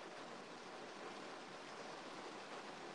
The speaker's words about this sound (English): can you hear the rain just pouring down on my car? God, call the news. Pouring. It doesn't rain here ever.